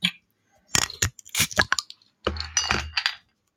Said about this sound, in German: dann machen wir doch mal die 21er Edition auf. Jetzt bin ich mal gespannt. Mal meinen Öffner wieder finden.